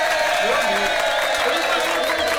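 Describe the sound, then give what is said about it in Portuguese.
Applause with some cheering fills the whole stretch as a dense, continuous clatter of clapping, with a voice talking over it. “Uma salva de palmas pra você, viu, Tom?”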